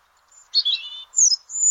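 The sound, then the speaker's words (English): European robin song: a few short, high, thin warbling phrases separated by brief pauses, with a faint twitter at the start and no talk. “European robin. This is a European robin.”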